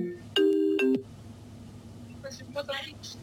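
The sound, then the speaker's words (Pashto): A telephone ringing with an incoming call: two short, bright tonal bursts close together, followed by quieter talk. “دلته زنګ راغی”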